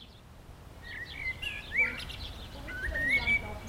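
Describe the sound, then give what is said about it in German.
Birds sing at a playground in a residential area of Schwerin, giving scattered faint, high chirps and short whistled calls over a soft, steady background hush. “Ein Spielplatz in einem Wohngebiet in Schwerin. Ein- und Mehrfamilienhäuser säumen die Straßen. Auf dem Spielplatz hört man die Vögel und kaum Kinder.”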